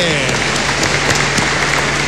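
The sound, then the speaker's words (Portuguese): Audience applause from a gathering, a dense, even wash of clapping that holds a steady level throughout, with voices mixed in. “E agora um forte aplauso para que se animem.”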